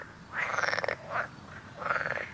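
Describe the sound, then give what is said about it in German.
Frogs croak in reeds by the water in a remote natural spot, giving a few rattling, pulsed calls of uneven length, two longer ones framing shorter, fainter croaks over a soft hiss. “Und man hört ganz viele Geräusche von Tieren. Auf jeden Fall Vögel, dann noch ab und zu Frösche.”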